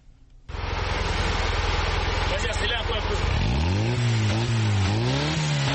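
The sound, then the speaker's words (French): Engine of a small blue pick-up truck built from recycled parts, driving through the streets of Bafoussam. A steady dense engine roar starts abruptly, then revs with its pitch rising and falling several times. “Cédric ne passe pas inaperçu lorsqu'il parcourt les rues de Bafoussam au volant de sa pick-up. Fabriqué à partir de pièces recyclées, le petit camion bleu attire beaucoup de regards”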